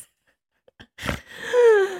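A single short, forceful nasal snort made during breathing practice, a noisy burst out of near silence, followed by a brief voiced sound.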